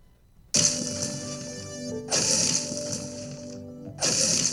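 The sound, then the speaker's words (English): Stone-hit sound effect from a video game: three loud, sharp impacts, each followed by a long ringing, metallic-sounding tail before the next strike. “Stone hit, tree hit, or metal tree hit. Tree hit. It's a stone hit.”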